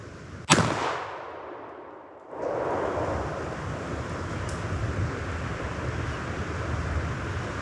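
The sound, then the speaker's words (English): A single sharp crack of a long-range hunting rifle shot rings out, its report decaying quickly, followed by a steady rush of gusting wind across the microphone. “Yep, we got him. Boy, that was a long shot. That was a good shot.”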